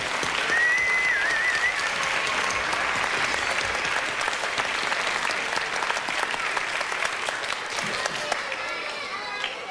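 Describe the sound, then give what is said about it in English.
An audience applauds itself for singing along at a live concert, with dense, steady clapping and crowd noise that stays loud and continuous for nearly ten seconds. “I think we should have a big hand for how well you've sung. Let's hear it for you.”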